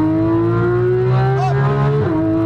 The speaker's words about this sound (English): Downshift. Unwind. Lots of throttle. Go for it.